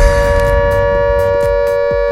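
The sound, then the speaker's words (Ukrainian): Air raid siren wailing as a loud, sustained tone that holds one steady pitch with rich harmonics, a low rumble running underneath. “Увага всім, повітряна тривога. Прослідуйте до найближчого укриття.”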